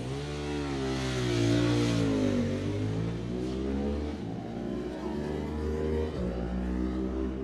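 A Ducati 916 racing motorcycle engine revs loudly and continuously, at a road-race event on a mountain course. The engine note climbs and drops as the throttle is worked, and it stays strong throughout.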